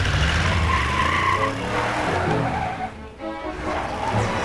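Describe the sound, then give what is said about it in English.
Engine and tire noise from a pickup truck turning around on a road: a loud, continuous rumbling roar with a rough, skidding edge. It dips briefly, then picks up again. No voices. “turns his truck around.”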